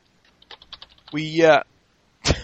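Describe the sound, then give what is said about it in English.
Quick, light keystrokes tap on a computer keyboard in an uneven run, followed by a short vocal sound and then one louder burst near the end. “there's typing going on.”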